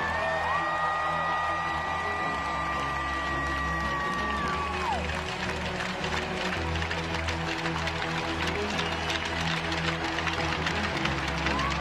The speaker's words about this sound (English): Ladies and gentlemen, please stand and cheer one more time for number 47, Adam Johnson.